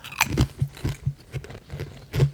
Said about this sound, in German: Also die sehen jetzt aus wie man so Chips kennt, in diesem leicht orangenen Ton, in diesem Paprikaton. Erster.